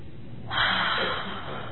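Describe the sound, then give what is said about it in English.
A single deep breath drawn in during a guided relaxation and healing meditation: after a quiet moment, one long, airy inhale swells up and holds steady before easing off slightly, with no talking. “Now I ask that you take a deep breath.”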